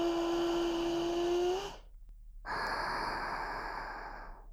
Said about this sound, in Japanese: 大きく 息を吸って、